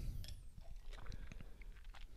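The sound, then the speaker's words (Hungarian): Ice cubes from a drink are crunched between the teeth in a quiet run of irregular, crisp cracks and clicks, with no talk. “De én vizet ittam, mert ugye a jégkockát. Ez az életem. Én most is itt iszogatom a jégkockát belőle.”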